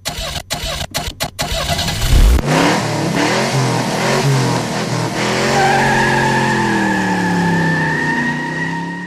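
A car engine starts and revs as the vehicle moves off. A few sharp clicks precede a loud start, then a sustained revving drone rises in pitch and settles into a steady, strong hum.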